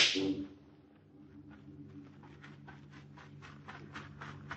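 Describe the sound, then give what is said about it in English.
A single gunshot fired to get someone's attention: a loud, sharp crack at the very start that decays quickly, followed by faint scattered rustling. “Did you not hear me shoot off a gun to call your attention?”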